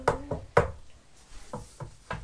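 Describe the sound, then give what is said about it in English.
Knocking at a door: a few sharp, crisp raps in two clusters, loud and separated by a short pause. “Saw a rabbit running by, knocking at the door.”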